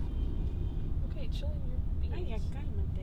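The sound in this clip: Steady low rumble of road and engine noise inside a moving car, continuous and fairly quiet, with faint voices murmuring over it.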